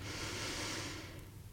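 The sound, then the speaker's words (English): A deep, slow breath during a guided chakra meditation, heard as a soft, steady airy hiss that eases off toward the end. “we'll breathe into that seventh chakra at the top of the head”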